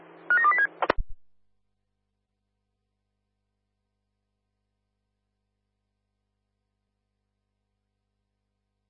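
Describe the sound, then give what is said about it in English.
Telephone keypad tones as a number is dialled: a quick run of several short beeps and a couple of clicks, then long silence ending in one sharp click. “Roger, dialing now.”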